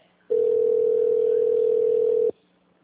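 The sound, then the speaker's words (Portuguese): A telephone line tone plays while a call is transferred: one loud, steady, mid-pitched tone holds unbroken for about two seconds, then stops, with only faint line noise before and after. “Por favor, aguarde na linha enquanto transferimos sua ligação para um representante.”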